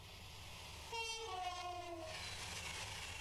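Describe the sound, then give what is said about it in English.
Pendolino train passing with a steady low rumble and a hissing wash of noise. Over the top comes a horn blast of a few clear, sustained tones. “That's a Pendolino train hitting me.”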